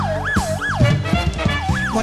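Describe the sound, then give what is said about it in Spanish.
Ambulance and police car sirens wail in repeated smooth rising and falling sweeps, loud and tonal, over a busy rhythmic backing with thumps and other noises. “Una ambulancia, una patrulla,”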